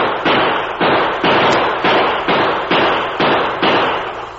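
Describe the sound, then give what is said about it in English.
Gunshots from a gun in a radio drama, nine loud sharp cracks fired at a steady rhythm about half a second apart, each with a short decaying tail, with no voices. “The masked man was only a few feet away, firing at something or someone below him.”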